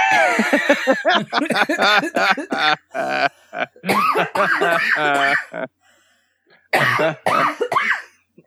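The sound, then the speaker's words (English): A person choking after swallowing wrong, giving several harsh bursts of coughing and throat clearing that alternate with stretches of talk, then a short quiet gap before a final cough burst. “I just, just made myself choke.”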